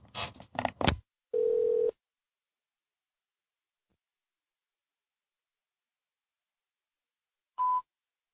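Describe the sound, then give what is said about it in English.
A voicemail beep sounds: after a brief burst of sound, one flat electronic tone lasts about half a second, then long silence before a second, shorter and higher beep near the end. “That was like a voicemail with no fucking... Just the beep.”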